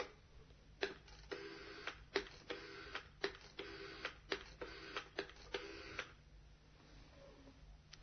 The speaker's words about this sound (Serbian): Na drugoj strani zvoni telefon.